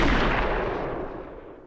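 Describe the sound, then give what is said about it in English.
Gunshot from a scene in a TV drama where a character is shot, a single loud blast whose broad rumble fades away over a long tail, with no voices. “And when he gets shot, dude, I mean, it was tough to see. Even though I was expecting it, like it was a tough shot.”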